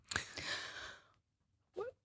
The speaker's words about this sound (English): I'm I'm just drawing in a breath to uh, make sure I get this right.